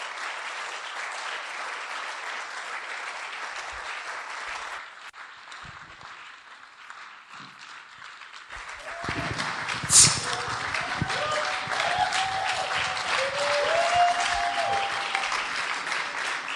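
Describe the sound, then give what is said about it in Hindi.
A church audience claps to welcome a bishop: sustained, dense applause that dips in the middle, then swells again louder, with voices calling out over the clapping in the second half. “Oh, clap, clap for Jesus.”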